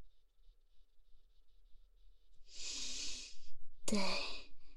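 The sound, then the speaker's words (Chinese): Deep breathing: a faint hiss, then one long airy breath, followed by a second breath with a sharp onset and a partly voiced, sigh-like finish. “来，深呼吸。”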